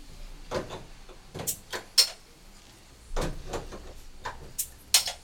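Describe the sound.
Someone handles and opens a bottle of Peroni Nastro Azzurro Italian beer. Several sharp clicks and short scraping knocks come at irregular intervals, moderately loud against a quiet background.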